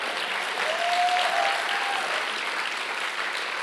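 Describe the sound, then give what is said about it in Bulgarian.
Congregation applauding during a church service, a broad, even roar of many hands clapping together, loud and sustained without a break. “О, ръкопляскай, като че наистина го вярваш.”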